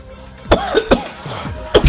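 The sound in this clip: Coughing from peeled almonds stuck in the throat: a few harsh, loud coughs separated by strained, throaty sounds.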